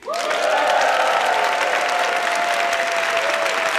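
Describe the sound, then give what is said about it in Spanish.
A large audience applauds in a comedy hall, a dense, loud wash of clapping that starts abruptly and holds steady throughout with no pause. “Bueno, un montón de gente que suena así.”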